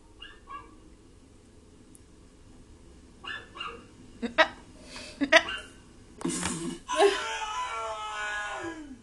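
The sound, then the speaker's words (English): A person imitates a dog barking: a few sharp, loud, yelping bark sounds in quick succession, then a longer drawn-out cry that falls in pitch, over a faint low background hum. “Just learned how to bark.”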